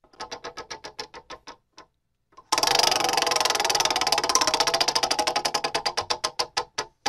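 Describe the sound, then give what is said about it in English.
A prize wheel clicks as it is spun: a steady run of ticks, a short pause, then a dense burst of rapid clicking that gradually slows into separate, spaced ticks. “All right, spin that wheel. My turn again. Yep, love it. Spin it. Here we go.”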